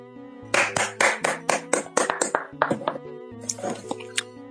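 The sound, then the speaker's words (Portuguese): Hand clapping: many sharp, loud claps in a quick, steady rhythm, with a short pause and then more claps. Sustained musical tones play underneath the whole time. “Bater pouca palma, senão o povo vai acordar.”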